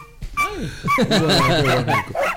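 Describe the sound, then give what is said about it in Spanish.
Small yips and whines from a chihuahua, a champion-bred dog, rise over people talking. One brief wavering cry comes early, and further short high yelps blend into the busy chatter. “Es un chihuahua.”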